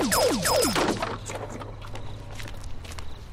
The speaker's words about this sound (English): Ladies, maybe less shooting each other?